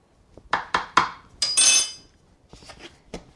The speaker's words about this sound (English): Stirring it up, measuring it into the cup. Level it off with the handle of the spoon.